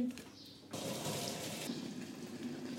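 Milk pours in a steady stream to fill churns for making ice cream. It starts abruptly after a brief quiet moment and runs on as a continuous, hissing gush.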